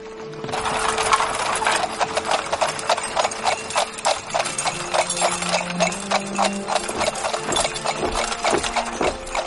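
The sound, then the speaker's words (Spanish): Brisk clip-clop of horse hooves as a horse-drawn carriage drives away. The hoof beats are loud, quick and continuous for the whole stretch, with no voices. “sube a su carruaje y se marcha mientras su amigo lo observa desde la puerta.”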